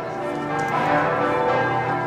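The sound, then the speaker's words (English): Church bells peal from a Catholic church on a city square, a loud, continuous wash of overlapping ringing tones with no talk. “What you hear are the church bells pealing at the Theatina Kirche Catholic Church here in Wittelsbacher Platz, just a couple of blocks away from the Bayerischer Hof Hotel.”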